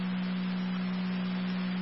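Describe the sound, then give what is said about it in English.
Fire dispatch alert tone over a radio channel, a single steady low-pitched tone holding evenly throughout with a faint hiss of static beneath it and no voices. “Fire Control to Tri-Community, tones for ALS for”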